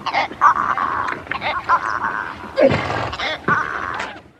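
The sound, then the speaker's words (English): Adult zebras bark, bray, snort and chirp in a loud series of harsh, honking calls. Short bursts mix with longer braying cries, and breathy snorts fall in between. “So those are the sounds of adult zebras. They make a surprising amount of noise and communicate using barks, brays, snorts, and chirps.”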